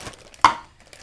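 A knife slits open a bag of frozen chopped onions, giving one sharp, crisp cut that stands out briefly over a quiet background.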